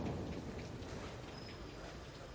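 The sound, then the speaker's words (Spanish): Steady rain falling as an even, unbroken hiss at moderate loudness, with no distinct drops or other sounds standing out. “Camina bajo la lluvia.”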